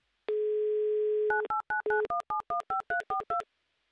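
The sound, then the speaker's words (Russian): A telephone number is dialed: a steady dial tone holds briefly, then a rapid run of short touch-tone keypad beeps follows at a brisk, even pace, clear with no talk. “Мы очень хотим отправить вас в наш суперфинал, и для этого набираю ваш номер.”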